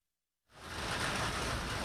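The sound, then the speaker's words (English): Heavy rain pelts the sidewalk along a street in Hollis, Queens: a dense, steady hiss that sets in abruptly after a brief silence and then holds loud and even. “Rain is pelting the sidewalk along 183rd Street in Hollis, Queens.”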